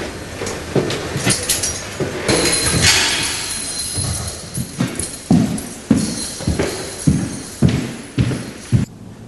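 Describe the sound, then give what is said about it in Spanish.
Prison cell door shutting, then footsteps walking away down a corridor: clattering and thudding noise at first, followed by many evenly spaced, sharp steps in a steady rhythm. “Más tarde, Brenda cierra la puerta de la celda y se aleja caminando por el pasillo.”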